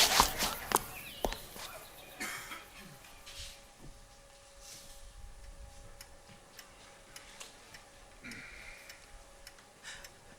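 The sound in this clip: Quick footsteps of people hurrying along on foot, heard as irregular, sharp taps over a low, steady background, with a brighter burst of noise at the very start.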